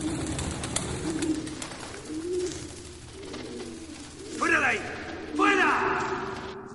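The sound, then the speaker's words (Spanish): A pigeon coos after entering through a window of a grain silo. Two short bursts of throaty, warbling cooing sound near the end, over a faint low background. “Una paloma entra por una ventana.”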